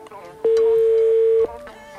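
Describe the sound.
An outgoing telephone call rings unanswered: a single steady ringback tone lasts about a second, with faint talk before and after it.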